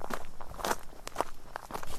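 Footsteps climbing uphill along a path toward a rocky outcrop near Meyronne. Many steady steps fall in an even rhythm at moderate loudness, with no talking.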